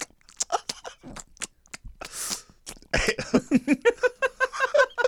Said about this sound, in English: Nobody eats a ring pop like that. Nobody eats a ring pop like that ever. I'm trying to ASMR it up.